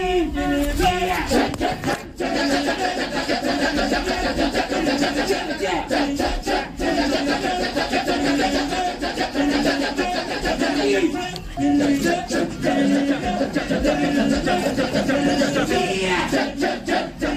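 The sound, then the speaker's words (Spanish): Balinese Kecak dance chant performed by a massed group of voices, dense and rhythmic, with interlocking syllables and shouted accents, sustained loudly throughout with a couple of brief pauses. “esta escena de esta danza del Kekak de Bali, y a mí me conmovió y quiero que la escuchéis.”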